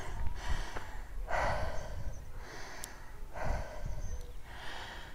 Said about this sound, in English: all you can hear is me breathing deeply as I've got to the top of a hill